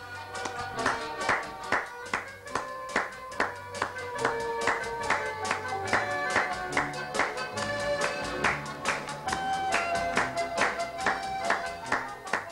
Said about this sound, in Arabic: حاولوا تصفقوا مثلي تصفيق سريع.